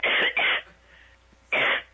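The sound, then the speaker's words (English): Tubercular coughing played as a sound effect: three harsh, raspy coughs, two in quick succession and then a third after a short pause. “That's the sound of tubercular coughing. Yeah. Listen, I'll hit it again.”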